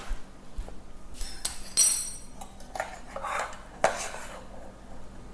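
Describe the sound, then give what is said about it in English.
Serving spoons and cutlery clink and clatter against dishes while a layered chocolate dessert topped with chocolate shavings is finished. The sound is quiet and scattered, with a few sharper metallic clinks over a soft background of handling. “And let me just get some serving spoons.”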